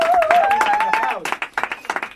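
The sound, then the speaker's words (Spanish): Audience applause for a performer at a Spanish-language show: a voice speaks first, then a short burst of scattered clapping follows. “Bien, un aplauso a una persona. Gracias, un aplauso para Játiva.”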